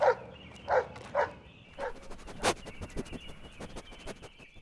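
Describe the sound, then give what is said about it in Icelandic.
A dog barks several times in quick succession. The first barks are loud and sharp, then they become fainter and break into softer, choppier yelps. “Þegar hann kominn við enda þorpsins, mætti honum hundur.”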